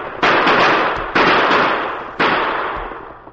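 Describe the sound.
Gunshots are fired at riding outlaws as a radio drama effect. There are three loud, sharp blasts about a second apart, each trailing off in a long, rumbling decay.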